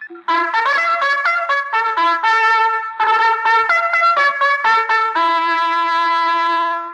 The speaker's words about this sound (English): That sound was very important to the fighting men who protected our country during its early years. It's the call to horse.